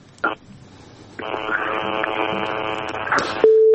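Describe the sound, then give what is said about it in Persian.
Telephone line ringing as a call-in connects: a brief blip, then a long, buzzy ring tone lasting about two seconds, ending in a short, steady, pure beep. “تماس داریم میگیریم.”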